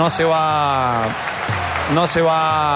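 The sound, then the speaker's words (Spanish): A stadium crowd applauds Millonarios player Pereira as he leaves the pitch during the clásico, a steady wash of clapping and crowd noise beneath a commentator's continuous talk. “no se va Gómez, se va Pereira. Y el aplauso a uno de los mejores jugadores que tiene Millonarios y a uno de los mejores jugadores del clásico.”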